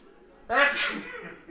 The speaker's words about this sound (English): I have no idea what this matured whiskey really does make you sneeze.